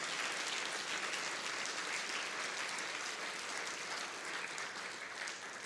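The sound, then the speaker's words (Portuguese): Worshippers in a Methodist cathedral applaud the Lord during a service, with many hands clapping in a thick, continuous roar that stays strong and fades slightly toward the end. “Peça o milagre que você quer e agora aplauda o Senhor como nunca, aplauda o Senhor, celebrando o Senhor.”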